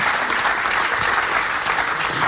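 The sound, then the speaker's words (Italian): Steady, dense applause from an audience after a poetry reading, an even wash of many hands clapping that continues at full loudness throughout with no voices heard. “Facciamo un bel applauso.”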